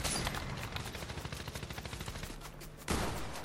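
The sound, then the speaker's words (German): Rapid automatic fire from a SCAR assault rifle in a video game rattles in a steady, fast stream of shots, fairly quiet, then a louder burst cuts in near the end. “Okay, ich glaube, meine neue Lieblingswaffe ist die Scar. Meine Lieblingswaffe ist die Scar schon die ganze Zeit.”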